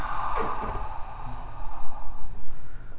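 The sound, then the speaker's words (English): A deep breath is drawn and released during a guided relaxation exercise. It makes a soft, airy rush, followed by a fuller, slower breath of air, with no speech over it. “Take a deep breath in. Let it out. Breath in. And release.”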